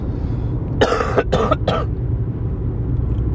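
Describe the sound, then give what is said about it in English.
Three hoarse coughs in quick succession from a person who has been ill for about a month. They stand out loudly over a low, steady background rumble, then quiet returns. “makes this cough and this sickness I've had for like a month make sense, huh?”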